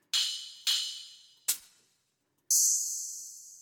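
Cymbal samples from a music production library auditioned one after another: four bright, hissy hits, the first three ringing out and decaying, the last holding as a sustained shimmer.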